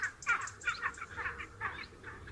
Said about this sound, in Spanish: esos ladridos que se oyen ahí arriba. Las imperiales fueron un emblema heráldico y sobre todo un emblema de la conservación en las últimas décadas